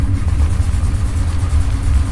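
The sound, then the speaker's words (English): A car engine runs with a steady, loud, low rumble and a slight throbbing pulse, alone without voices. “Just turn on the car and let's get out of here.”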